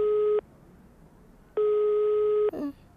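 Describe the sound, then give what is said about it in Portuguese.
Telephone ringback tone on an outgoing call: two steady low-pitched beeps, the first cut short at the start and the second lasting about a second, separated by a quiet gap and followed by a brief soft noise. “Estou a ligar. Vamos ver. Está a chamar. Está a chamar.”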